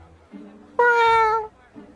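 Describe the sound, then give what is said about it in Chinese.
A single soft meow from a white cat: one steady, slightly strained cry lasting under a second, with faint low sounds before and after it. “似乎是感觉到气氛不对，吴一舟轻喵一声”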